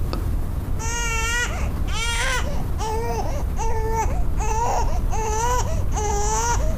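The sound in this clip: A baby crying in seven distinct wailing bursts, each a high, harmonic cry separated by short gasps, loud and regular over faint background noise.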